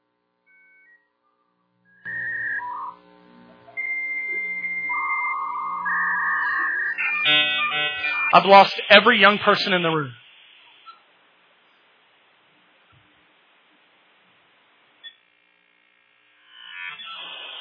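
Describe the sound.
A dial-up internet modem connecting: a sequence of dialing tones and beeps, then a loud warbling, screeching handshake that settles into a steady hiss before cutting off. A voice speaks briefly near the end.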